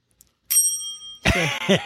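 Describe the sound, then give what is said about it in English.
A single bright bell ring with a clear, sustained tone that decays over about half a second, standing alone against near silence. “That bell's better than this bell. Or that bell just makes me hungry. Yeah, your first bell's the best of the three.”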